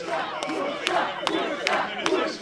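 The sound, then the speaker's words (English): A football cheer squad chants coach John Worsfold's name at the Bombers' ground, a crowd of voices pulsing in a regular rhythmic chant with sharp accented beats recurring about every half second. “The coach, John Worsfold, gives an interview which is broadcast on the stadium screens. The cheer squad chants out his name.”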